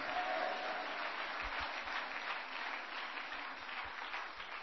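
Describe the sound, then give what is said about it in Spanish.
Applause from an audience at a church service: dense, steady clapping that runs loud and unbroken from start to finish, with no pauses between bursts. “Demos palmas a Cristo cuando creen que el Señor lo hace.”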